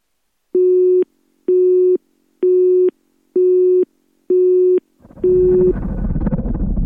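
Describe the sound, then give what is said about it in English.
Six evenly spaced, steady telephone line tones on a patched call before it connects. The last tone is overlapped by a loud burst of static noise that runs to the end. “You'll hear a tone, then his voice.”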